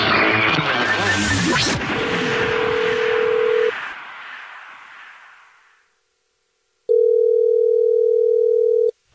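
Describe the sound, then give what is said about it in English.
A steady telephone dial tone sounds while a call is placed back to a caller. It holds loud and unbroken for about two seconds, after a louder burst of mixed noise. “we're calling you back”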